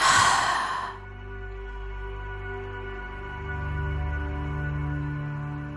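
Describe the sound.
A deep breath exhaled during a guided breathing exercise: one loud, airy rush of breath in the first second that fades into steady, low sustained tones.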